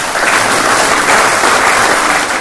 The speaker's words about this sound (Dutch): het Zijne Majesteit de Koning heeft behaagd om u te benoemen tot lid in de Orde van Oranje Nassau. Een applaus.